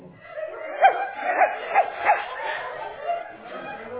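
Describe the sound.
A person's voice imitates a very small dog barking, with a few short, high, nasal yips in a loose rhythm. The yips are fairly quiet and stand alone without other talk.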